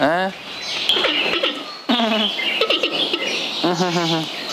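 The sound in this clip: Giant panda calls: a few high, bleating, chirp-like cries with bright harmonic tones, each lasting under a second and separated by short breathy pauses.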